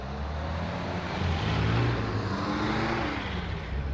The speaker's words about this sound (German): Die Motoren werden angelassen und die drei Wagen fahren ohne Licht davon.